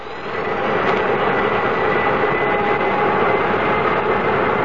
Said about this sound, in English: Request permission to start engines. You have permission, Captain. Hit them